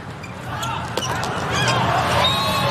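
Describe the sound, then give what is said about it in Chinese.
A volleyball serve in a China versus Poland match: a single sharp ball strike over steady crowd noise. “董宇涵发球”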